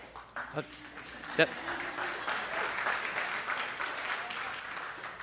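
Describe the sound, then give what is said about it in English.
Applause from a church audience during a sermon, a few scattered claps at first, then steady, moderate clapping that stays fairly soft and half-hearted, with a voice briefly audible over it. “half a clap is no clap”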